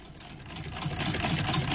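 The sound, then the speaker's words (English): Steady whirring and rattling of a very old hand-cranked sewing machine running continuously, with a dense mechanical clatter that grows slightly louder toward the end. “That's the sound of a very old but still very functional hand-cranked sewing machine.”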